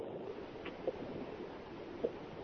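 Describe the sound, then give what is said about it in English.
Inside a moving car, a faint, steady road and engine rumble drones on with no voices, broken only by two small knocks. “Hold on a second. Pardon me. I'm driving. I really shouldn't try to talk while I'm driving.”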